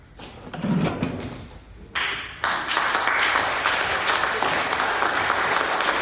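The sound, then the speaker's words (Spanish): The audience at a courtroom trial bursts into applause. It starts after a couple of seconds of quieter shuffling and a thud, then becomes loud, dense clapping that holds steady to the end. “Todos los asistentes al juicio aplauden las palabras de Danilo.”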